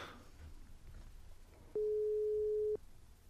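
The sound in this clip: A telephone call being placed during a live call-in. One steady electronic tone about a second long stands out clearly above faint background hiss.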